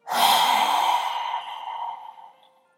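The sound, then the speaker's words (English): Deep, slow breathing with a long, airy breath sound that stays steady and then gradually fades to silence. “Again, inhale, exhale.”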